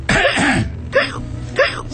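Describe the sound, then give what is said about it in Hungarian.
Deliberate coughing: a long, rough, voiced cough followed by two shorter hacking bursts, loud and close, with nothing else in the background. “Köhögjünk egyet.”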